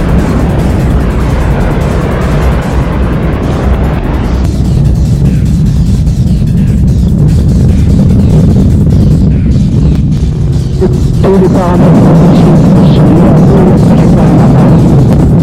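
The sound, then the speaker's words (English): Rocket engine ignition and liftoff at a launch: a very loud, continuous low roar with a rough, crackling texture that swells and sustains without a break for the full length. “deux, unité, feu. Allumage. Décollage.”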